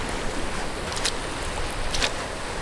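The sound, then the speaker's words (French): Waves wash over Pénétin beach in Morbihan, Brittany, at dusk as the tide goes out over rocks and pools. A continuous soft surf hiss carries two brief brighter splashes. “Je marche sur la plage de Pénétin, dans le Morbihan, en Bretagne.”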